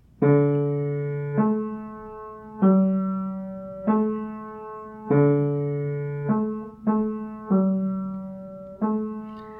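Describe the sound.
Orchestral forest motif opening an opera's first scene, set in a forest: low sustained chords repeat in a slow, even pattern, each swelling on and then fading, with the pitch shifting between chords. No voices are heard.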